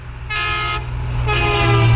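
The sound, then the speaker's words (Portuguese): A truck horn honks in loud, sustained blasts with a rich, chord-like blare that shifts once partway through and holds to the end. “E vários ouvintes já pediram aqui o buzinaço do caminhão.”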